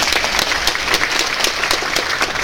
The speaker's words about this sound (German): Wir haben hier einen riesen Applaus für die Kandidaten.